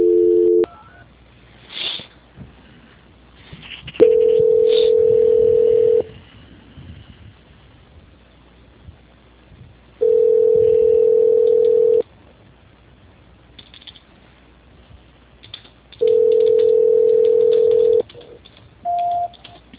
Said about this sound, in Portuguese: Eu estou tentando passar a sua ligação, tá? Tá bom. Transferência.